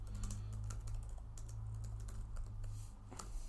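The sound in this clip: Faint typing on a computer keyboard, many quick light keystrokes in an uneven run over a low steady hum, with no talking.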